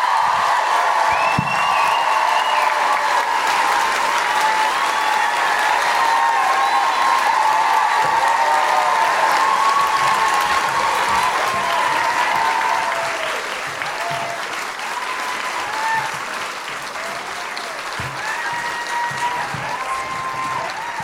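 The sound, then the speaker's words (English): Loud applause and cheering from a live comedy show audience in Auckland, with whoops rising above the dense clapping before the noise eases a little and carries on. “Put your hands together and make incredible guilty feminists welcoming, woohooing Auckland noises for Ali Moore!”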